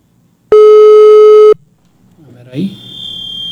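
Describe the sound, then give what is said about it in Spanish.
A telephone call tone sounds while a colleague is being dialed: one loud, steady, mid-pitched beep lasting about a second, followed by faint, indistinct noise. “Aquí vamos a marcarle a Gilberto. En este momento nos vamos a enlazar con mi compañero. A ver, denme un segundo. Ahí le estoy marcando a Gilberto.”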